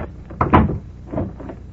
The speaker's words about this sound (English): Behind every unopened door, there is a mystery. And the opening of this door introduces us to another in the series, the key.